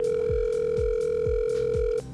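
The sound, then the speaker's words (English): A steady telephone tone plays as a radio station places a call to a contest winner. The tone holds level with soft, regular low thumps about every half second, then cuts off just before the end. “And he is about to receive a phone call.”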